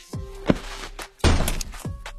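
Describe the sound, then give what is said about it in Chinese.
A chair kicked away as someone stands up: a short knock, then a louder, rough burst of scraping noise that dies away. “池小池踢开椅子站起身来，同时对季作山说”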